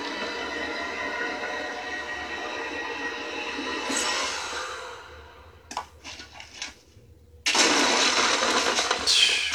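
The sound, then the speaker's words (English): A BMW motorcycle rides away, its engine a loud, rough, steady rumble that drops off into a quieter stretch with a few sputters, then bursts back in with a loud roar near the end. “And there goes the BMW bike.”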